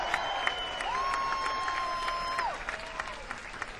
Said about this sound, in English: Give yourself a hand, everybody.